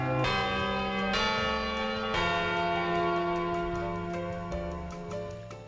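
A church bell chimes the quarter hour with a few resonant metallic strikes in slow succession, each leaving a long, shimmering ring that fades gradually, heard alone and fairly soft.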